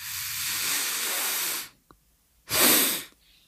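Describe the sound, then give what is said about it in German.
Breath drawn in through the nose as part of a breathing technique for drinking a shot of schnapps: a long, steady hissing inhale, a short pause with a faint click, then a shorter, louder rush of air, with no talk. “Ich atme durch die Nase ein.”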